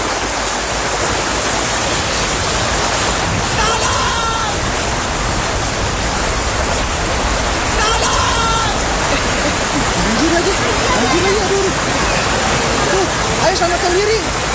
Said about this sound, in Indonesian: hujan lagi gimana dong? Iya hujan ya.